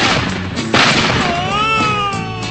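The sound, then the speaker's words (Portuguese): A single gunshot sound effect, fired to wake someone, bursts out as a sharp crack, followed by a thin warbling tone. “Acorda, Zé! Acorda, Zé! Lá vai fogo, Zé! Vai chumbo! Vai chumbo quente, Zé!”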